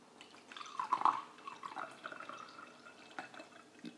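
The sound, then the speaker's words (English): Wine poured into a glass in a kitchen, a soft gurgling trickle that swells early, then thins into faint, irregular drips. “Okay, now, is that red wine or white wine? Did you hear the sound of it into the glass?”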